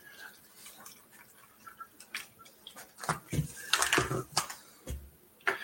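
Water is poured off rice that has been soaking, heard as a few short splashing, sloshing bursts in the second half after quieter rustling.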